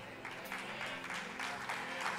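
An audience applauds faintly, the clapping coming in soft, uneven bursts that rise and fall over a low background.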